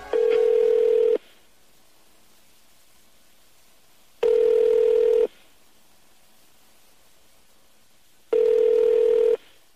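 Telephone ringback tone sounds before a call is answered: three steady, mid-pitched rings, each about a second long, separated by longer silent gaps, with no voices.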